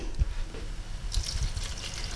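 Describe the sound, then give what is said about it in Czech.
A little water is poured into a pot of red cabbage, a soft, brief splashing trickle that grows brighter in the second half over quiet background noise. “Teď bych ho podlila trošku vody.”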